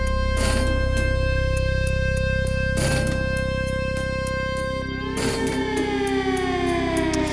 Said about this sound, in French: il y a ce son très symbolique que tu utilises au milieu de la chanson. C'est la sirène. C'est celui-ci, exactement.